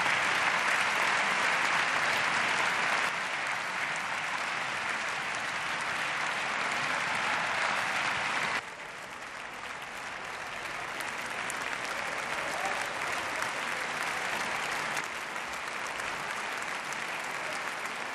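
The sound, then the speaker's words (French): Sustained applause from a standing ovation in the German parliament, marking the outgoing chancellor's farewell. Dense, steady clapping fills the whole stretch, dipping slightly in level partway through and continuing evenly to the end. “Les adieux et l'ovation, Angela Merkel”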